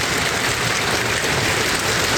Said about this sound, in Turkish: Amasya'nın Gümüşacıköy ve Taşova ilçelerinde sağanak ve dolu etkili oldu.